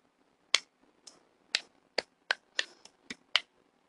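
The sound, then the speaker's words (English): Several sharp, crisp hand claps ring out one at a time, evenly spaced with clean silence between them, fairly faint and with no voices around them. “that is a clap for you, my friend.”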